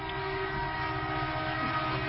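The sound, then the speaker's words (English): A coal train sounds its horn at 2 a.m., a sustained steady tonal blast held unbroken throughout. “Coal train. I guess they didn't get the memo to stop honking”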